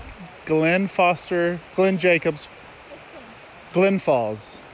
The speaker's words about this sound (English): You can hear some of the water, obviously, in the background.